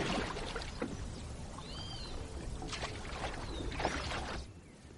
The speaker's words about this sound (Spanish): Continúan navegando por el río uno frente al otro sentados en la barca.